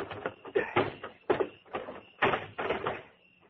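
A trunk is shoved into a grave, giving a few heavy, broad thumps and scraping bursts in an uneven sequence that then die away into quiet.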